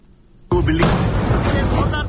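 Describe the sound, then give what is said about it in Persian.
An explosion at the central police headquarters in Karachi: after a low murmur, a sudden loud blast hits. It gives way to a dense, sustained roar of rumbling, crackling noise that stays loud to the end. “گزارش دهی زنده تلویزیون دان از لحظه یک انفجار در قرارگاه مرکزی پلیس در شهر کراچی”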